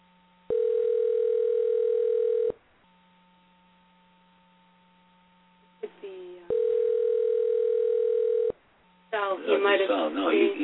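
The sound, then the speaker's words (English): A telephone call rings through with a ringback signal: two long, steady tones of about two seconds each, separated by a quiet pause with a faint hum. A short voice sound comes just before the second tone, and a voice starts speaking after it. “Yep, now call. Let's try again. Now we see if we can get through to him.”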